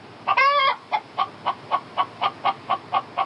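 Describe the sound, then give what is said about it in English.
Chicken clucking: one drawn-out squawk, then ten short, evenly spaced clucks in a steady rhythm, moderately loud and with no voices. “Chicken. All right, enough with the chicken”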